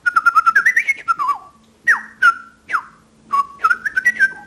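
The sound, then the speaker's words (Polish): A person whistles an imitation of blackbird song, answering birds in a garden: a fast run of short fluty notes, then several separate swooping whistles that drop in pitch, and another quick warbled phrase to finish. “Na czubkach sosny siadają kosy i pięknie śpiewają. Nawet próbuję się z tymi kosami przedrzeźniać.”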